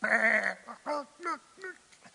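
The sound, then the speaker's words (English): A sheep being pulled out of a ditch bleats in one long, wavering cry, followed by a few shorter, quieter calls. “we should have had that video of the sheep that gets pulled out of the ditch. Watch this. Come on, you sheep.”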